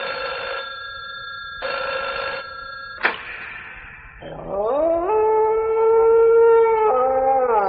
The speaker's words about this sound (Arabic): في يوم كنت سهران بالليل كده فوجئت التليفون رن